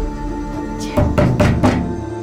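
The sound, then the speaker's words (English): Heavy blows and violent kicks strike a door: four loud, dull thuds land in quick succession over a low background hum. “The door shudders. Heavy blows. Hard, violent kicks.”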